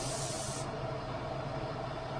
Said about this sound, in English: At Maple Landmark Woodcraft in Burlington, Vermont, toy fire trucks are being sprayed with finish